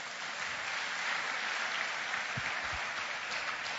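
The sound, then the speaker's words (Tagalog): Audience at a faith gathering clapping vigorously, a dense, unbroken wash of hand claps that holds steady for about four seconds. “Yung mga excited nga, pumalakpak ng malakas.”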